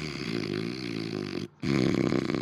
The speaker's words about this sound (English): God, I hope I don't snore like that.